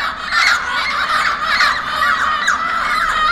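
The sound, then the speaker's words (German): Many overlapping honking calls of geese flying over the city of Stuttgart in winter, fairly loud and continuous throughout, with no talk. “Vielleicht sind es auch Gänse, die von der Umgebung nach Stuttgart fliegen.”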